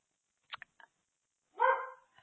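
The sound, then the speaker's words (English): A dog barking: a few short, sharp yips followed by one longer, louder bark, all fairly faint, with no talk. “doggies barking”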